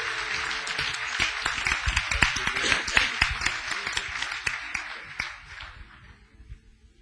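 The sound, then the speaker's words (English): Congregation clapping hands in church to welcome a minister to the pulpit, a dense, continuous wash of claps that holds steady and then gradually thins and fades toward the end. “Let's put our hands together, give God a praise offering, and welcome Deborah to the pulpit.”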